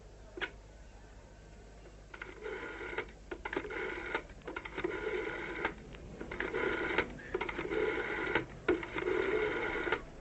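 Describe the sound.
A telephone being dialed on an old corded handset: a steady series of short, bright tonal bursts separated by brief gaps, repeating for several seconds at moderate volume with no talk over it.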